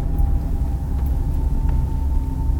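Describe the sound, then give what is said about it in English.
A car driving along the road: a continuous low engine and tyre drone with a faint steady whine above it, even in loudness and unbroken throughout. “We're driving there right now.”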